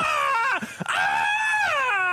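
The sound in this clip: A human voice imitates a screaming cat with a strained, drawn-out wail that breaks briefly in the middle, then resumes as a second long howl. No other sounds or talk are present.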